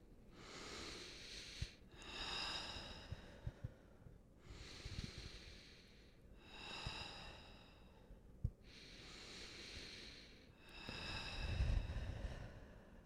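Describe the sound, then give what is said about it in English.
Slow, deep breathing at a group tarot reading night, quiet long inhales and exhales in a few even cycles separated by brief pauses, with no talking. “invite you all to close your eyes and take three deep breaths with me, please.”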